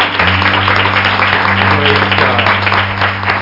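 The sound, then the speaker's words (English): A church audience clapping their hands, a dense continuous patter over low sustained instrumental tones. “Let's give them a hand clap. Praise God.”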